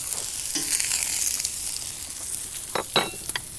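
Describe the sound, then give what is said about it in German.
Food sizzles in a hot pan as it is stirred, a steady hiss broken by a few sharper scraping and clinking strokes toward the end. “Ja, jetzt kannst du rühren.”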